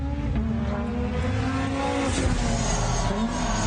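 A rally car engine drones steadily at a low, constant pitch, running without pause through the whole stretch.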